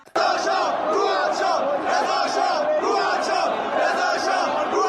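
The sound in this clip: Football fans chant and cheer in a stadium, a loud, dense crowd roar that starts abruptly and holds steady, pulsing with the rhythm of massed chanting voices.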